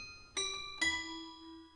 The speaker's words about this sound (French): il se présente à l'entrée de la villa et tire sur la sonnette du portail.